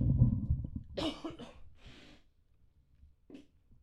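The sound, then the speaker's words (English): Phlegmy coughing and throat clearing from a person struggling to bring up mucus. A low, thick rumble opens, followed by a few harsh, rasping bursts, then quiet breathing and one last short hack. “I'm sorry, I'm just keep regurgitating phlegm. Uh-huh. I can't get it.”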